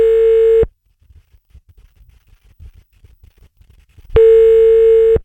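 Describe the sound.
Telephone dial tone while a phone number is called: a loud, steady tone that holds for under a second, then faint low rumbles and taps, then the same steady tone returning for about a second.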